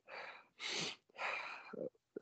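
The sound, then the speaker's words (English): A person demonstrates rapid breathing with three forceful, rushing breaths in quick succession, followed by a couple of shorter, sharper puffs. All of it is fairly soft. “I actually heard something about taking more quick breaths, like very fast.”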